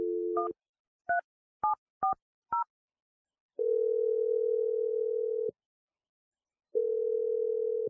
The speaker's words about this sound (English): But I'm dialing the number right now.